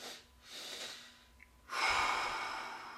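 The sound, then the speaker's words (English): Relaxation breathing exercise: two soft, quick inhales followed by one long, stronger exhale, quiet and steady with no talk. “So a double inhale in, exhale out. Three breaths.”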